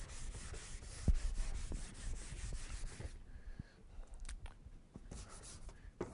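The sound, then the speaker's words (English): Quick scratchy drawing strokes as a diagram is sketched fast, a busy run of rubbing marks at first, then sparser, separate strokes. “If we draw that real quickly here and talk about this.”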